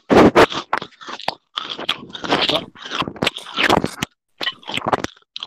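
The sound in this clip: Biting into a white chocolate candy bar for a taste test, with irregular bursts of crisp crunching, crackling and scraping broken by short pauses.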